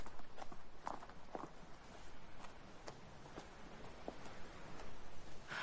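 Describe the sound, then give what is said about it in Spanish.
Footsteps of someone walking from a minivan toward a house: a faint series of soft, irregular steps with no voices. “Cierra el maletero. Camina hacia la casa.”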